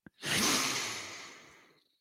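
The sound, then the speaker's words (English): One deep breath drawn in, a breathy rush that starts suddenly after a tiny click, peaks quickly and then tapers smoothly over about one and a half seconds, alone and fairly soft. “Take a deep breath in.”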